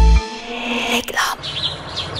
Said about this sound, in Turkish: bahar geldi. Güneş, kuş sesleri